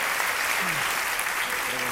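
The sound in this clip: Audience applause on a live show, dense and steady throughout, with a voice talking over the clapping.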